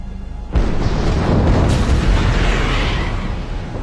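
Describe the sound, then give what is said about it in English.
A tanker ship explodes in a sudden, massive blast, followed by a heavy, roaring rumble that stays loud and dense for several seconds before easing slightly. “looks through his binoculars at the aftermath of the enormous blast. Pulsing black and orange smoke billows into the sky.”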